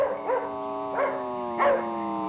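A small black poodle barks three times in quick, sharp bursts, each short and mid-pitched, over a steady sustained tone in the background.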